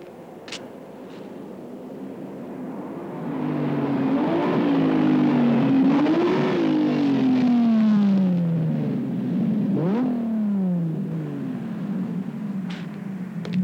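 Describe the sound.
A car engine revving hard, loud and sustained, its pitch climbing and dropping repeatedly through several surges before easing off.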